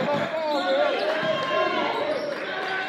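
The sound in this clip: A basketball is dribbled on the court during a game, with repeated steady bounces under continuous crowd noise and voices.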